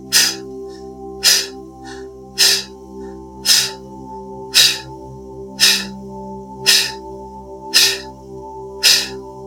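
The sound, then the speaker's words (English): Nine forceful breathwork exhalations, each a sharp, breathy burst, repeat at an even pace of roughly one per second over a steady, sustained musical drone. “Taking breaks as you need, moving or shaking as feels good, and returning to this powerful exhalation over and over again.”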